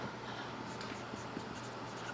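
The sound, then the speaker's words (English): Faint scratching of a pen writing English words by hand, a quiet continuous scraping with no clear pauses and no voices. “In the Old Testament, I'm going to just write in English because I don't know Hebrew.”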